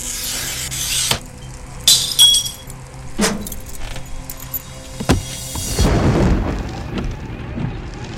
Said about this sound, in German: Dann setzt er den Glasschneider an einem Fenster an.